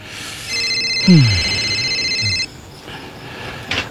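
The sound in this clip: Electronic phone ringtone for an incoming call from Mom: one sustained, warbling high ring of about two seconds that cuts off abruptly, with a brief voice over it.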